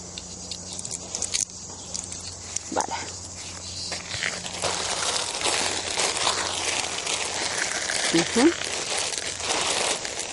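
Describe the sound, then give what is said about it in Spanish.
Rustling and crinkling as a gift tied to Andean cosmovision is wrapped with ribbon, a soft, steady patter of handling noise that continues throughout with small crackles. “Recordando que este, este, regalo pues viene del concepto de la cosmovisión andina y vamos a envolverlo con esta cinta.”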